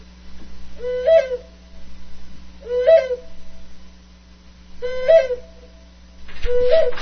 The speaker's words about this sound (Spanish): Desde hace mucho tiempo, el unular de la lechuza significa el anuncio de alguna muerte, aunque se le tiene un gran respeto por su sabiduría, prudencia y tener algo de bruja.